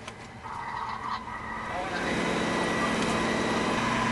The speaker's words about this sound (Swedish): Nu åker vi upp med en lyftkran upp på taket på huset.